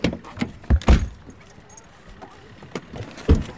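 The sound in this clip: Keys jangle as someone gets into a Mercedes car, with a few brief sharp knocks and rattles, loudest near the start and again near the end, over a quiet background.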